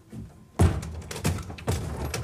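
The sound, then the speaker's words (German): A door being opened in the dark: a few dull thumps and clunks, the first with a sharp, fairly loud onset and the rest softer, with no talk over them. “Und mach die Tür dort am Ende auf.”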